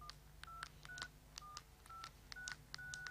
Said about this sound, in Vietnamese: À, phải gọi ngay cho lão Cùng mới được.